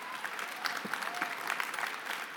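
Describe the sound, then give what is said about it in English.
Audience applause fills a church as two young helpers are welcomed to the stage during a Christmas-week service: dense, steady clapping from many hands, even in level throughout. “Will you put your hands together and welcome Poppy and Sophie Strickland to the stage, please?”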